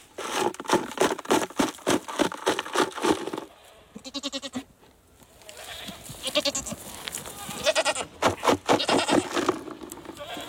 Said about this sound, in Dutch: Ik hoor gemekker.